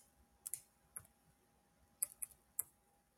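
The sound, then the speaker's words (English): A few faint, sharp keyboard clicks from typing, sparse and irregular: a short cluster, a single tap, then a quick burst of several more, with near silence between them. “I'm typing.”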